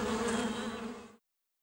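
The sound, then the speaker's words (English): Honeybees buzz in a loud, steady drone with a low hum at its core, continuing for about a second before stopping abruptly into silence. “Ah, help! Honeybees!”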